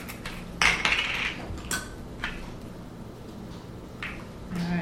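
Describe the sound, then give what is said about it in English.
Lids are set onto a pot during Play-Doh play, giving a few light clinks and clatters spread over several seconds above a soft, steady background hiss. “So you need me to take the lid off? You need to put the lids on here.”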